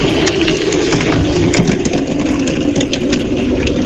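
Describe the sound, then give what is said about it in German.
A soapbox car rolls into the finish line and brakes, giving a loud, steady rumbling clatter with a dense rattling texture that runs unbroken from start to end. “Also pass auf, das ist das Geräusch von einer Seifenkiste, die ins Ziel einfährt und bremst.”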